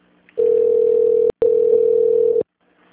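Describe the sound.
Telephone line tone after a transferred call dropped: two long, steady, mid-pitched beeps separated by a very brief gap, loud and alone.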